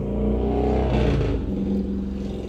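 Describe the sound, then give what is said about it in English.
Motorcycles running outside a home, heard as a steady, low engine drone with a rough, revving quality that shifts in pitch partway through. “I'm at home, so you guys are gonna hear motorcycles and stuff outside, I apologize.”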